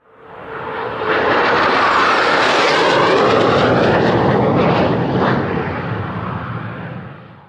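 Military aircraft engines roar during aerial refueling operations. The loud, broad, steady roar swells in at the start, holds, and eases slightly toward the end.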